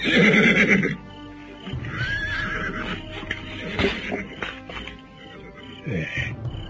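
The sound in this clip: A horse neighs loudly at the start with a high, wavering whinny, then whinnies again near the end, with fainter clip-clop and rustling sounds between the calls.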